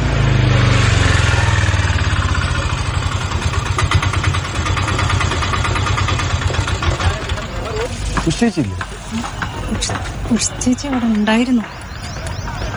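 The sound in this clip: Auto rickshaw engine idling with a steady, buzzing rumble that runs through the whole stretch; toward the end, voices talk over the running motor.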